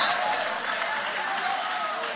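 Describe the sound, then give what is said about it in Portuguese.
Congregation applause in a church service: a dense, continuous rush of many hands clapping at a fairly strong, even level throughout. “Levante a mão então e aplaude o nome dele.”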